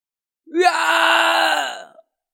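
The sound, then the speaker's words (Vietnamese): A man lets out a single soft groan of pain, drawn out for over a second; it bends slightly upward at the start, then holds steady before fading away. “ngay lập tức hắn không nhịn được khẽ rên một tiếng.”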